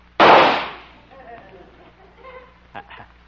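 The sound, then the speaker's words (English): A single rifle shot fired at a target during a sharpshooting demonstration: one loud, sharp burst with a quickly fading tail, followed by faint talk and a couple of soft knocks. “I'll just take my trusty rifle here and watch me ring the bullseye. Here goes.”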